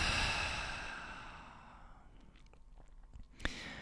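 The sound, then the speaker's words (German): A deep breath released through the mouth during a yoga session, a long soft airy whoosh that fades over about two seconds into near silence with faint small clicks. “Nimm einen tiefen Atemzug ein durch die Nase. Aus durch den Mund.”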